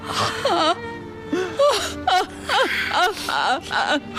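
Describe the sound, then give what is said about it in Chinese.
A mother wails and sobs in grief after her son's lung cancer diagnosis, with loud, wavering cries that rise and fall in repeated bursts and catch into whimpers between breaths. “妈，您先别哭。”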